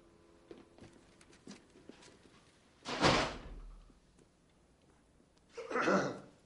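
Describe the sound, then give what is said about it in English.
A door is closed, giving two muffled thuds a few seconds apart over a faint, quiet background. “Close the door.”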